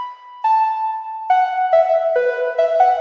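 A simple synthesizer lead plays a short melody of a few sustained, bright harmonic notes, stepping between pitches with clean starts and no accompaniment.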